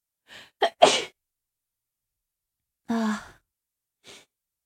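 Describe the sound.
A sneeze: a short intake followed by a sharp, loud burst near the start, then after a pause a breathy sigh-like exhale and one faint short breath.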